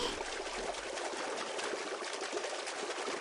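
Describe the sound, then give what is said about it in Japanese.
Water splashes and sloshes in a large bathtub as someone swims, making a quiet, continuous wash with small irregular surges and no talk. “志保もこうやって広い湯船で泳いだりするんだ。こんな風に、それ、それ。”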